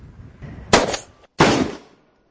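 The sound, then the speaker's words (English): Two sharp gunshots from target shooting by a beginner, each a loud crack followed by a decaying ring-out, with a short silence between them. “Great shooting, especially for a beginner.”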